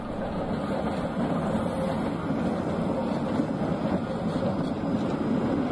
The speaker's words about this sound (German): Neben den Tatras gibt es noch einige modernisierte Konstaltriebwagen als reiner Hochflurwagen, so wie hier der Typ Moderus Alpha 105N.